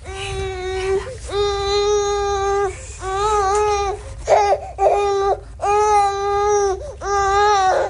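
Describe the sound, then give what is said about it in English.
A teething baby cries at a Washington state DSHS office in Lacey, letting out a series of loud, wavering wails with brief catches of breath between them. “Okay, seriously, they found the one baby that's just like probably teething. Oh, yeah, because babies never cry, right?”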